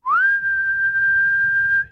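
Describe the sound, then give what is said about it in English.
A single loud whistle, like a call to summon followers, slides quickly upward at the start and then holds a clear, steady pitch for nearly two seconds, alone and without any talk. “God whistles,”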